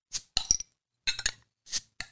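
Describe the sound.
A can or bottle of craft beer from the farmhouse brewery being opened, heard as a few short, sharp clinks and pops separated by brief pauses, with no talk.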